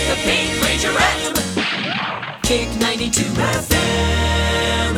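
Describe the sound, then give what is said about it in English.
A punchy Kick 92 FM radio station shotgun jingle plays loud, dense musical hits punctuated by gunshot-like blasts, with a brief dropout near the middle before a final sustained burst. “Oh, and cut 12 comes with this alternate version that can stand alone as a quick shotgun jingle. Kick 92 FM.”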